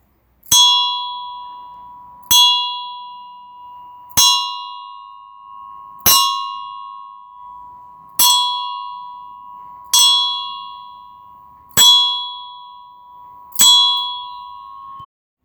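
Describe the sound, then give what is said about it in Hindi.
A clock chimes eight evenly spaced, clear bell strokes, each a bright ringing tone that sounds sharply and then slowly fades before the next, with no voices. “घड़ी बजने लगी।”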